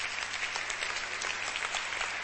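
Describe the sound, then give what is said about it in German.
A church audience applauds to welcome first-time guests, producing steady, even clapping from many hands at moderate loudness throughout. “Noch jemand da hinten, wo zum ersten Mal ist. Wir geben einen Applaus.”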